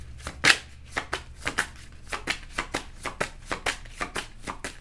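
Tarot cards being shuffled: many crisp papery flicks and snaps in a fairly steady, repeating rhythm, with no voices.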